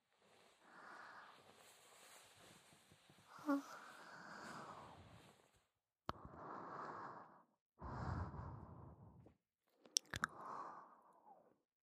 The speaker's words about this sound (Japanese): 一緒に食べよう。それじゃあ、いただきまーす。